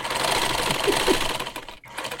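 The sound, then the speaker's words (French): An electric sewing machine runs steadily while its foot pedal is pressed to drive the needle. It makes a continuous whirring, rattling hum with a brief drop near the end before picking back up. “on met la canette là-dedans, on enfile ici, et on la branche, et on, appuie sur la pédale pour, pour actionner l'aiguille.”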